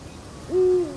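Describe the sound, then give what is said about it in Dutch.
A single low owl hoot, a steady hollow tone of about a third of a second with a brief rising onset, sounds alone over faint background hiss. “Je hoort over de vogel. Hij roept. Ja? Ik hoor hem.”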